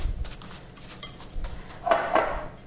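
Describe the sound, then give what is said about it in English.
A spoon scrapes and clinks against a bowl while stirring a coconut cereal mix with big flaky shredded coconut, giving a run of light, irregular clinks that grow a bit louder near the end. “stir it round to incorporate the ingredients really evenly”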